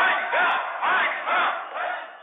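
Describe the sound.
About 300 protesters shout outside a regional administration building as they greet the prime minister, their massed voices rising and falling in about four rhythmic bursts, loud and chant-like throughout.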